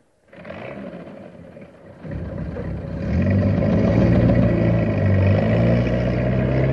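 A tank drives off, its engine a deep rumble that swells louder in stages and then holds at a steady, heavy drone.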